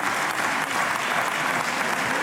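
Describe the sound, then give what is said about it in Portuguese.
Deputies arriving in the Portuguese parliament chamber are applauded by many hands, a dense, even patter of claps that stays steady and fairly soft for its whole short length. “As palmas são dos deputados que chegam.”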